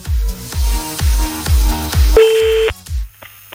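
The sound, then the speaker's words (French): A telephone call being dialed during a prank-call phone game, heard as a steady electronic tone over rhythmic background music with thumping beats, followed by a shorter, fainter tone after the music drops. “On appelle au hasard”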